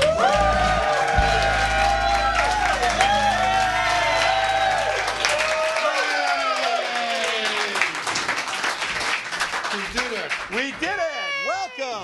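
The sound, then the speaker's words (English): A live audience claps and cheers as the hosts of a comedy radio show come onto the stage. Loud applause plays over intro music that stops near the midpoint, and whoops and shouting voices rise toward the end. “please put your hands together and welcome to the stage your hosts”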